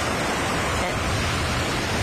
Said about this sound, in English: what we do need is a bit of ambiance. So let's transport ourselves to the sea.